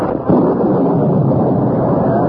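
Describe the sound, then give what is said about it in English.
A sudden storm with thunder breaks: a loud, low rumbling roar bursts in abruptly after a brief quieter moment, then rolls on steadily and densely without letting up. “As he rode, a sudden storm broke.”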